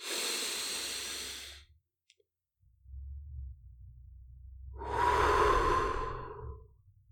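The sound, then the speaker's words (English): A deep, slow breath taken in through the nose and let out through the mouth: two long, soft airy rushes separated by a quiet pause, over a low steady hum. “take one deep and slow breath in through the nose and out through the mouth”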